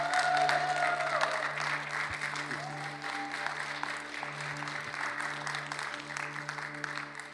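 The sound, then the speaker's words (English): Applause from a church audience rising in a standing ovation to welcome a guest pastor: dense, steady clapping that holds at an even, fairly loud level for several seconds, with a faint low hum beneath. “So please join me in welcoming our families of this morning with a standing ovation, Pastor Brett Fuller.”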